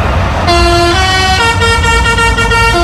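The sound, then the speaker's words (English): A lorry horn plays a children's song tune while the lorry carries pods from the big wheel at Hull Fair. It sounds as a loud, continuous run of several stepped, steady notes that rise and fall in pitch like a melody. “What noise does your horn make when you're carrying a load of pods from the big wheel at Hull Fair? This noise.”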